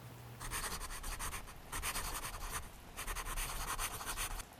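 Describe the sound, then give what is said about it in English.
A pen scratching as someone writes in a notebook, in three quiet bursts of brisk, papery strokes separated by short pauses. “Get a notebook and write everything those demons made you feel.”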